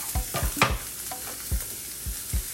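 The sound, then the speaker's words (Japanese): Onions frying in hot oil in a pan give a steady, bright sizzle, broken by many sharp scrapes and knocks of a utensil stirring them. “油を入れたところで早速作っていきます一番最初に玉ねぎ入れますよ”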